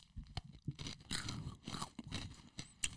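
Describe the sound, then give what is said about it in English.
Crunching and chewing of a chocolate-covered English toffee bar, with crisp, brittle bites over steady mouth sounds, faint and without talk. “Now, this is considered, I'm looking at the wrapping, an English toffee bar. Yeah, I like these. Oh, mine's kind of broken. You know, obviously everything's surrounded in chocolate, so I eat it.”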